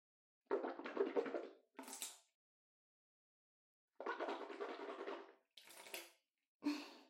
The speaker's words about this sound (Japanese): じゃあ、私は一回お口ブクブクってして